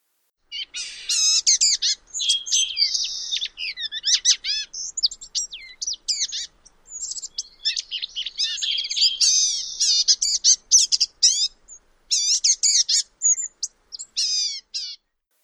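A blue-gray gnatcatcher sings a continuous, high-pitched jumble of squeaky, chattering and mewing notes, with short pauses between rapid runs.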